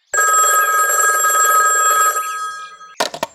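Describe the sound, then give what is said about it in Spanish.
A telephone bell ringing on an outgoing call, one long, loud, rapidly trilling ring that fades out, followed by a few sharp clicks. “A ver, déjame llamarle a un amigo de la ciudad.”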